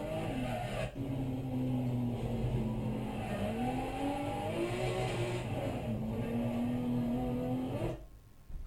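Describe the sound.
A drift car engine revs hard in footage of a drifting run that ended in a crash into a mountain. The loud roar is sustained and wavers in pitch, dips briefly early on, and cuts off abruptly near the end.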